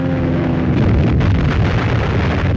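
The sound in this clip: Explosions from archival newsreel footage of the Pearl Harbor raid form a heavy, continuous roaring rumble that stays loud throughout, with no voices.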